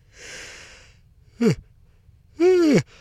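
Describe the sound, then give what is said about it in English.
A person yawning in bed aboard an overnight sleeper train: a long breathy intake, then a short voiced sound and a longer drawn-out vocal exhale that falls in pitch. “You just yawned up there, didn't you?”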